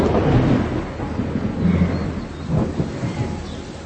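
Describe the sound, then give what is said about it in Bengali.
Thunder rolls in a deep, continuous rumble that swells a few times, layered with a steady hiss like rain, with no voices. “তোমার বজ্রপাতের শব্দে ভয় করে না? না, বজ্রপাতের শব্দে আমার খুবই ভালো লাগে”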